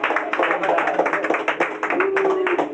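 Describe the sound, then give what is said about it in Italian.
A small audience claps in encouragement at a poetry reading, giving sparse, irregular hand claps with distinct individual slaps rather than a full ovation. “Un applauso di incoraggiamento. Bravo! Bravo!”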